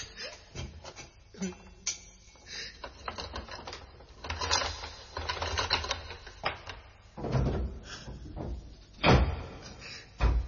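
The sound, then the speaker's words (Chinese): A cell door is unlocked and opened with irregular metallic clanks, rattles and scrapes, and a few heavier bangs near the end. “快啲开锁啦，我即刻押佢出去噶。 好啊，咁我而家开俾你啊。”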